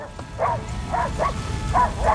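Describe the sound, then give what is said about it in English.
Two dogs barking at a fire flaring near a diesel pump on a jetty, about five sharp, moderately loud barks in an uneven rhythm, with no voices. “On the jetty, a fire flares near a diesel pump. Rex and Sparky bark at it, alerting Connor.”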